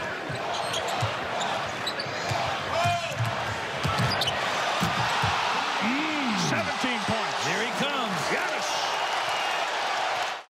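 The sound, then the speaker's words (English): Basketball action from an NBA game highlight: a ball bounces repeatedly on the court beneath a loud, steady crowd roar, with commentators talking over it around a big dunk. “That was a huge, huge dunk.”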